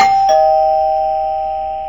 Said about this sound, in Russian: Неожиданный звонок в дверь заставил ее вздрогнуть.